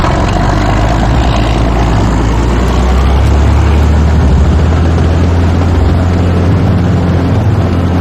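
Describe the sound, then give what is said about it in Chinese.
Deep, heavy engine rumble from a tank setting off toward a target, a loud continuous roar with a steady grinding drone that holds for about eight seconds. “坦克向预定目标出发。”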